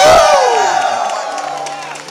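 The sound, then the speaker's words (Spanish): A church audience shouts for joy in a loud, sustained roar of cheering voices that begins with a strong falling shout and slowly fades. “¿Cuánto dan un grito de júbilo en esta tarde?”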